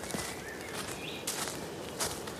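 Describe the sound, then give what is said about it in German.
Footsteps on forest ground as someone walks deep into woodland and down into a small hollow, a few soft, faint steps spaced apart over a steady background hiss. “Ja, wir sind schon ein ganz schönes Stück in den Wald reingelaufen. Laufen jetzt wie in so eine kleine Senke.”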